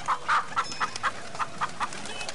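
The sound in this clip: Village chickens cluck in a steady run of short, fairly faint clucks at an even pace over a constant background hiss, with no talking.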